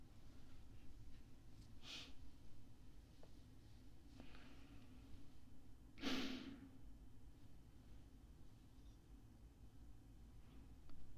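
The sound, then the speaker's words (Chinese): A person gasps for air after being allowed to breathe again, drawing a few faint, sharp breaths spaced seconds apart, with one stronger gasp partway through. “好了。勉强允许你呼吸几口空气吧。”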